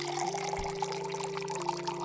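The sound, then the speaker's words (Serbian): Water is poured from a small bottle into a blue bowl, a steady trickling splash lasting about two seconds beneath a sustained low tonal hum. “Vodu iz flašice smo usuli u plavu posudu i ukrasili je malom palmom.”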